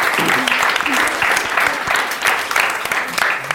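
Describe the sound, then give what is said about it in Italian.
Group applause breaks out, a loud, continuous patter of many hands with sharp individual claps standing out and a few voices mixed into the crowd noise throughout. “Clap, clap, sì. grande applauso.”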